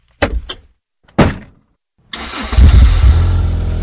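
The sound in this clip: A parked car's engine starts before pulling out. A couple of sharp clicks and a brief crank come first, then the engine catches with a loud roar and settles into a steady, rumbling idle.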